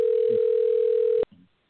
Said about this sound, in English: I hear a telephone ringing.